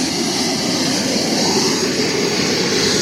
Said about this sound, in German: wir haben bereits 400 Grad in der Turbine rein. Jetzt ist das Gas dazugekommen, jetzt fährt das Ganze rauf. Auf etwa 60'000 Umdrehungen.